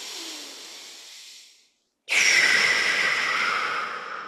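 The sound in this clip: A deep breath: a soft, airy breath sound, a short silent pause, then a louder, longer hissing breath that slowly fades.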